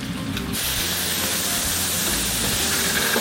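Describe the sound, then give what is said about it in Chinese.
Garlic frying in hot oil in a pan while cooking tomato with fried egg, giving a loud, steady crackling hiss that runs unbroken through the whole clip with no voices. “蒜爆香一下”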